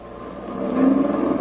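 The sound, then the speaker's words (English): A mechanized military column of trucks carrying tanks rumbles along a road with a broad, steady engine roar that swells louder about halfway through and holds there, with no voices. “Mechanized unit bringing up the rear, sir. Truck transports tanks. Clear the road and let them through.”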